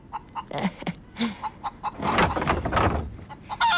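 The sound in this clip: Hens in a chicken coop clucking after laying eggs: many short, irregular clucks and squawks, fairly faint at first and thickening into a busier, louder stretch partway through.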